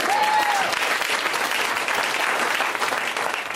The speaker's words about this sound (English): You should clap for that.